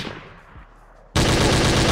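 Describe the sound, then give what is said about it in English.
Gunshot sound effect: after a quiet, low murmur, a sudden loud burst of rapid gunfire erupts about halfway through and keeps going to the end. “Shout out, Fran. Shots fired, man.”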